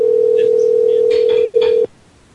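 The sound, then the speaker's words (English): A loud, steady telephone line tone during a call-in show sounds alone for about a second and a half, breaks off briefly, returns for a short moment and then stops. “and the phone rings.”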